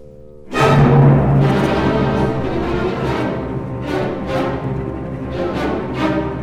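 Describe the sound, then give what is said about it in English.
A full orchestra bursts in with a sudden, loud chord as a symphony's development section begins after a soft clarinet close, then drives on with sustained, dense music punctuated by many sharp accented attacks. “This development section really explodes because the softest clarinet has ended the B theme, and now we're ready for the development. Okay. And it sounds like this.”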